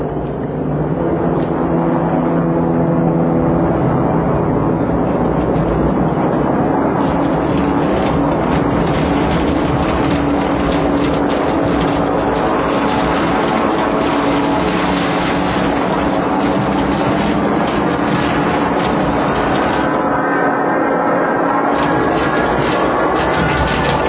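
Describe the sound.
Firefighting airplanes dive to put out a fire. Their engines make a continuous, loud, dense roar that holds steady throughout, with no clear breaks.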